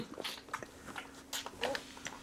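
Soft, wet lapping and smacking from a young predator animal drinking milk, faint and irregular, with small clicks and gulps.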